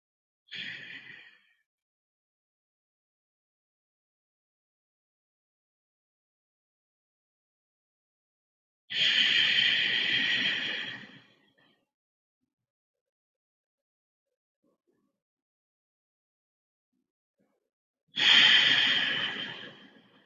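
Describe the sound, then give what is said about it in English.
Slow, deep breathing during a guided centering exercise: three soft, airy breaths separated by long silences, each swelling and fading over a couple of seconds; the first is cut short. “we're going to begin to center ourselves by taking some long, slow, deep breaths.”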